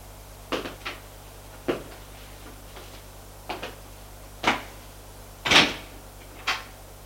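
A cupboard door of a deep hanging wardrobe being opened, heard as a series of sharp clicks and knocks at irregular intervals. Moderately loud over a low, steady background hum, with no talk.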